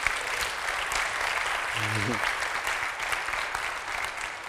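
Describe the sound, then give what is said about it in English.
Steady applause from an audience welcoming someone home at a church gathering fills the whole clip as a dense, even wash of clapping, with a brief voice rising over it midway. “Give a big hand and welcome Leanne home, will you?”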